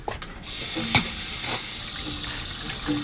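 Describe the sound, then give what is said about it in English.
Water runs from a sink tap in a steady hiss, with a few faint knocks and clinks at the start and partway through. “I need water stat. Yeah, of course. We have, like, a sink. A sink would be incredible.”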